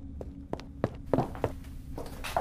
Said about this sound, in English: Suddenly, a man hurried into the room.